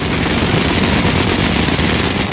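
Rapid fire from an Aselsan Korkut air defense gun shooting about 1100 rounds per minute at night during a military exercise, a loud, dense, unbroken roar of blended shots without gaps.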